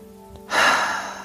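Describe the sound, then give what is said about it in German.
A deep breath taken during a guided relaxation exercise: one long, airy rush of breath that starts abruptly after a quiet moment, then fades slowly while staying fairly loud. No other sound is heard. “Und atme noch einmal tief aus, ein durch die Nase, aus durch den Mund.”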